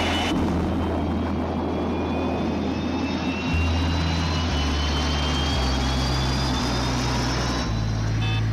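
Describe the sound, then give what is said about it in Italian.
A jet aircraft takes off with a loud, continuous engine roar. A high whine climbs slowly in pitch above a heavy low rumble that shifts in steps. “Decollo perfetto, comandante. Non risultano difetti di nessun genere.”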